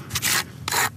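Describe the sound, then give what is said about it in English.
Two rough scraping strokes of a plastic snow scraper dragged across the cement-crusted rough base of a polished granite headstone in a cemetery; each stroke is a broad, gritty rasp lasting a fraction of a second, separated by a brief pause. “using a plastic snow scraper on the rough base of a polished granite monument”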